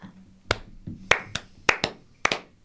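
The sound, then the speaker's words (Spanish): Brief applause for a man: a few sharp, scattered hand claps from only one or two people, irregularly spaced and fairly faint. “Era para vos el aplauso igual, el, honor para el señor”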